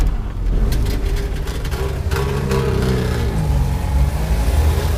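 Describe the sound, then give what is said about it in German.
A Trabant car engine revs and pulls away with a buzzy, rasping mid-pitched note that stays loud and fairly even throughout. “Ja, es ist der Trabi. Es war der Trabi. Hey, aber nicht so weit wegfahren, kleiner Trabi.”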